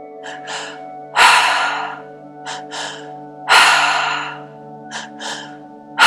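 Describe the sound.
Deep breathing during a breathwork exercise: two long, loud breaths stand out among several shorter, quicker breaths, all over a steady sustained musical drone.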